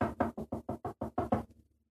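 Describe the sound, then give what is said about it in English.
Knocking on a door in a quick, even series of many sharp raps with a short fading tail at the end. “No, seriously, knock, knock. Who's there? Let me open the Purple Pants podcast door.”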